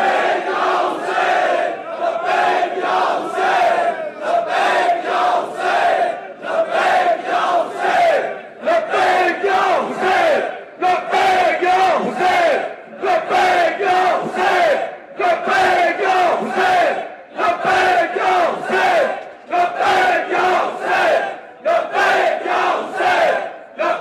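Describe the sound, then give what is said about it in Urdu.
A large crowd chants the slogan Labbaik ya Hussain in unison at an Ashura commemoration. The loud, rhythmic call repeats many times in steady bursts with short gaps between them, continuous for the whole stretch. “اور اس کے بعد مل کر دل کی گہرائیوں سے سب نے ایک منٹ تک مسلسل نعرہ لگانا ہے, لبیک یا حسین.”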